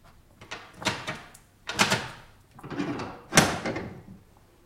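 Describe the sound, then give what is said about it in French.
A bolt is drawn on a door, giving four scraping, rattling bursts of metal and wood of varying length, the last one the sharpest. “Là, c'est sans doute une précaution inutile, mais Sigognac m'a bien recommandé de tirer le verrou.”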